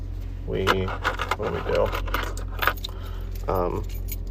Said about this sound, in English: a lot of keys in this. Oh my lord. Oh man. Sorry, terrible noise.